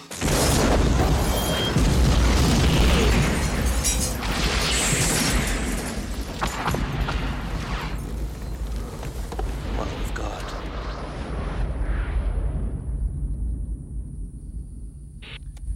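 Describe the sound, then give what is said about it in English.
A house explodes in a 1994 action film: a loud, broad roaring blast starts at once, then rumbles on and slowly fades over many seconds. A steady high tone comes in near the end. “Colombian Ron Jeremy is like driving up the dirt path to the house the second it explodes.”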